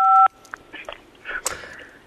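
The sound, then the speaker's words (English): A single phone keypad tone sounds as 5 is pressed, a loud, steady dual-pitch beep lasting a quarter second, followed by faint breathy rustles and soft mouth noises. “All right, do you want to give me a high five? Press 5 on your phone.”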